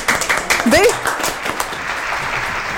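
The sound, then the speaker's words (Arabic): An audience claps in a quick flurry, while a voice speaks briefly over the start before the clapping carries on as a softer, steady patter. “طيب صفقوا عليها. صفقوا”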